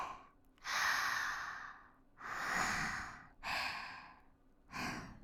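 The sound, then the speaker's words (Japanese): Slow, deep breathing in and out during a calming breathing exercise: four long, soft breaths in a steady rhythm, with no talk. “ゆっくり深呼吸して、吸って吐いて。”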